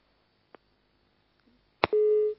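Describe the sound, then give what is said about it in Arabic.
Busy tone after a phone call is cut off: a faint click, then a sharp click and a steady mid-pitched tone that holds for about half a second, with no voices. “فصل اتصال.”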